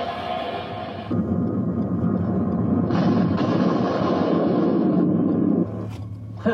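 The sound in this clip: Science-fiction weapon effect of pilot rays firing: a loud, sustained roaring blast with a buzzing edge that shifts in tone partway through, then ends in a short final burst.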